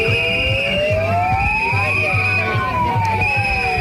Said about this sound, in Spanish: este era el sonido de los alrededor de 300 médicos, según la policía, 1.500 según los organizadores, que se han manifestado este mediodía en Córdoba